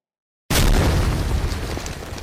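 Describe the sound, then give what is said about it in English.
Explosion sound effect of dirt bursting into the air: after a moment of silence, a sudden heavy blast hits at full force, followed by a thick, rumbling spray of debris that eases off slightly but continues to the end. “Dirt exploded into the air as she broke free.”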